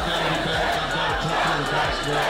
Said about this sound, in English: This crowd has erupted.